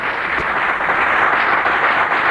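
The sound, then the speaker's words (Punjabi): Audience applause at a Punjabi religious music event, a dense, steady roar of many hands clapping at once, loud and even throughout. “ਇਹਨਾਂ ਤਾੜੀਆਂ ਤੋਂ ਬੜੀ ਆਸਾਨੀ ਨਾਲ ਅੰਦਾਜ਼ਾ ਲਾਇਆ ਜਾ ਸਕਦਾ ਕਿ ਆਪਾਂ ਪਰਮਾਤਮਾ ਨੂੰ ਬਹੁਤ ਪਿਆਰ ਕਰਦੇ ਹਾਂ।”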